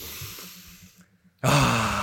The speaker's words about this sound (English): We do a deep breath together.